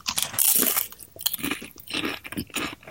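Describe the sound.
Loud crunching on a spicy roasted garlic snack, a burst of crisp, brittle bites followed by a few more crunchy chews in quick succession, with no talking over it.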